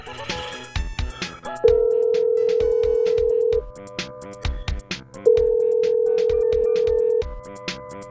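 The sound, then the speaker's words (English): Telephone ringing with an incoming call: two long, steady electronic tones, each lasting about two seconds and separated by a pause, sounding over a busy, clicking background. “You get a call”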